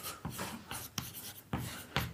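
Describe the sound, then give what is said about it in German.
Writing on a board: several scratchy strokes and short taps come in irregular bursts, quiet and dry, with no voices. “jetzt benutzen wir diese tolle Tafel doch einfach mal, wenn Sie zum Beispiel einfach schreiben, A0, Map und dann machen Sie es wieder zu.”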